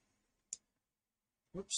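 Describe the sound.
One sharp, quiet computer mouse click, clicking back to a funnel page, in near silence before a voice begins speaking.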